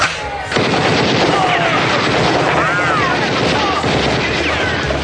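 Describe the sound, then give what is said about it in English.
Sustained machine-gun fire at a beach party, a dense, rapid rattle that bursts in after a brief lead-in and stays loud and continuous throughout, with voices over it. “Pop the trunk. I brought some old friends along to help us. Machine guns!”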